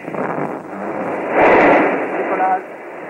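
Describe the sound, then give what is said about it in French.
Deep roar of a Véronique rocket launch in 1968, heard as a muffled, band-limited rush that swells louder midway and then eases off slightly without stopping. “Ça y est, elle est partie. 1968, ce lancement de Véronique.”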